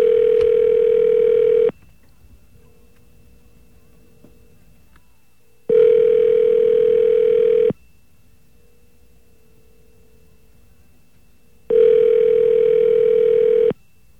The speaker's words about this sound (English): See if we can get one of our magical dial tones. There we go.